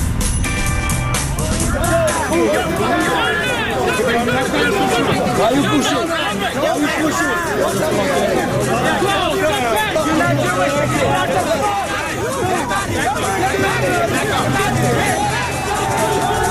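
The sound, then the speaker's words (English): Loud rioting crowd on a Brooklyn city street, a dense, continuous wash of overlapping shouts and chatter that never lets up across the whole stretch. “There's a riot in Brooklyn.”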